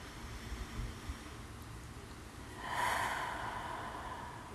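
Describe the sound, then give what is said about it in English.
A single deep, relaxing breath, a soft airy rush that swells midway and fades. It is faint and heard alone, with no talk. “taking a deep, relaxing breath together”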